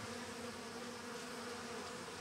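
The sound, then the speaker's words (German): Honey bees flying in to the hive entrance give a dense, steady buzzing hum that holds at an even level throughout, with no breaks and no voices. “Hier sieht man jetzt schön, wie die Biene anfliegen und dann in das Flugloch reinkrabbeln.”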